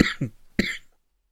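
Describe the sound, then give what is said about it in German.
A person coughs after choking on something while talking, with three harsh, raspy bursts, the last one strongest, followed by silence. “Habe mich nur verschluckt, Entschuldigung.”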